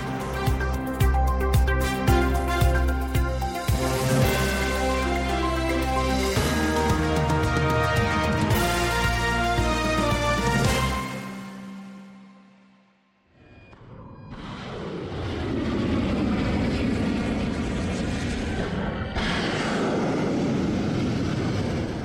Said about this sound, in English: What you're hearing now are clips of U.S. airstrikes released by U.S. Central Command.